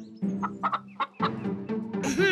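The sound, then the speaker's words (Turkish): Chickens cluck while being fed seed: a series of short, choppy clucks in an uneven rhythm, ending in a louder, higher squawk. “Merhaba tavuklar. Burada hepinize yetecek kadar tohum var.”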